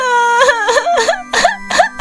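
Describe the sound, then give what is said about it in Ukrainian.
Loud, tonal wailing cries break into a series of short sobbing bursts with rising, wavering pitch, over a steady low hum. “Стоп! Будь ласка, не починай знову плакати, тому що ми тільки-но дісталися найголовнішого.”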